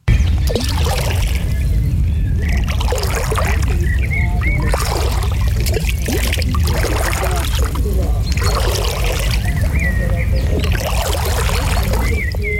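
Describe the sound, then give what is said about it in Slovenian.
People swim in a lake, making rhythmic water splashes and trickles that repeat at a steady pace through the whole stretch over a constant low wash of water. “Zdaj plavamo v jezeru”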